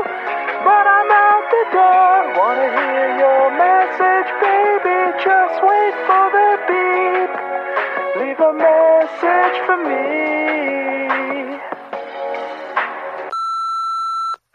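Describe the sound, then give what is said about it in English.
Answering machine beep as the machine picks up: a single steady, fairly high electronic tone lasting about a second, sounding right after a long stretch of music. “now your answering machine has picked up again”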